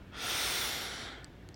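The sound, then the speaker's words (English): A single long, deep inhale through the nose during a guided breathing exercise. The airy hiss swells quickly, holds, and then slowly tapers off, with no talking over it. “Deeply inhale through your nose.”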